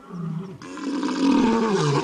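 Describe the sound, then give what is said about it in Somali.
A lion roars with a deep, rough, growling sound that builds in loudness and carries on without a break, heard alone with no talk. “mar dambe maqashay libaax cidii”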